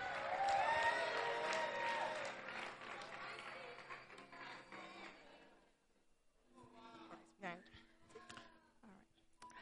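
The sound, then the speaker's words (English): Applause and crowd noise rise from a church audience welcoming a woman onto the stage to give her testimony. The clapping is loud and dense at first, thins out after a few seconds, and gives way to a voice with scattered sounds. “Please put your hands together as she comes on stage.”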